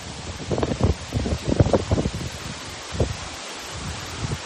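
Wind gusts through the trees outdoors beside a stream near a long stone stairway, making irregular bursts of rustling and whooshing that rise and fade, strongest in the first half.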